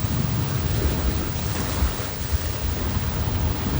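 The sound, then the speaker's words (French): Rough sea waves and wind during a stormy steamship crossing of the Red Sea, a continuous dense rushing roar with low rumbling surges and no voices. “La traversée de la mer Rouge est houleuse. Le Mongolia tangue”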